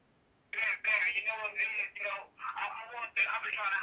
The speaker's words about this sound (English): We got a caller coming in. You want to take this call with me and see what's up?